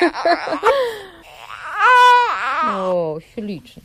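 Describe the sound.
A baby cries into a microphone: short fussy whimpers, then a loud, sustained wail that bends downward in pitch, followed by a few quieter sobbing cries.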